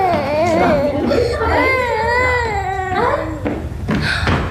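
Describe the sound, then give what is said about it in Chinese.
An infant cries in a row of wavering, high-pitched wails that rise and fall, loud and strained, with brief breaks between cries. “宝贝，不哭不哭。好了好了，妈妈在这儿了。”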